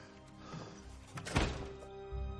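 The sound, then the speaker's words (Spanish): A door being closed in a horror thriller scene: a single dull thunk midway through, faint over a low steady hum. “Cierra, se apoya angustiada en la puerta.”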